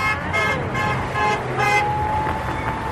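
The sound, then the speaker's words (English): Car horns honk in support on a street in Buckhead: several short, bright, tonal honks come at irregular intervals over steady traffic rumble, with people chattering underneath. “Back in Buckhead, there's chatter, honks of support,”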